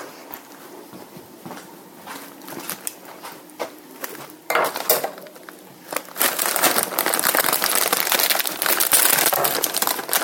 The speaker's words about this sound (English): I'm getting out the lime chips, Doritos with a hint of lime.